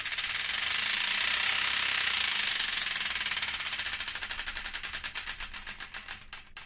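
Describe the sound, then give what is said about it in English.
A spinning prize wheel on a radio show gives off a rapid rattle of clicks. The ticks start as a dense blur and slow steadily until the individual clicks come apart near the end. No voices are heard. “we've got to spin the Wheel of Destiny to find out which one”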